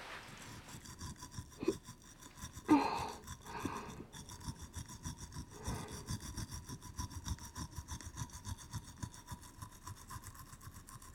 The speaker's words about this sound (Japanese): 下の歯に移りまして、磨き残しがないようにしっかりと磨いてまいりましょう。